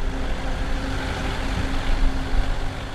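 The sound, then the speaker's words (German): Steady, low engine rumble of a dirty-yellow small truck driving through the dark tunnels of a mine, a continuous even drone with a faint hum and no voices. “Annette Parlitz fährt in diesen Tagen Besuchergruppen mit einem schmutzig-gelben Kleinlaster durch die dunklen Gänge.”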